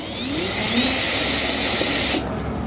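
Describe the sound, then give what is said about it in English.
A power drill or electric screwdriver whirs while two screws are removed from a light assembly on a Honda. It gives a steady, high, buzzing whine for about two seconds, then cuts off sharply and leaves only quiet background noise. “Okay, so I've removed the two screws, and now this light assembly on the Honda is held on”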